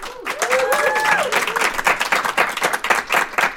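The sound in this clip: Audience applause welcomes a guest back: a dense, steady burst of many hands clapping that holds at a fairly even loudness for the whole stretch.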